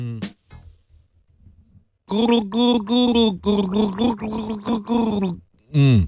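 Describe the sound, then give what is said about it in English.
A person gargles, producing a long run of loud, bubbling, voiced bursts with a wavering tune-like pitch, framed by brief vocal sounds at the start and end. “Let me just practice gargle. Hang on.”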